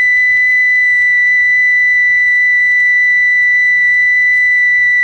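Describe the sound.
A steady, high-pitched electronic test tone sounds alone, holding one unwavering pitch loudly for the full five seconds with faint overtones above it and a soft low hiss beneath.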